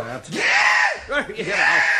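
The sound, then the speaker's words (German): A loud, shrill scream meant to frighten a cat comes from a squeaky, cartoonish voice in two long bursts with a short break. Its pitch wavers and warbles throughout. “Ich schrei, so laut ich kann, schrei ich jetzt mal.”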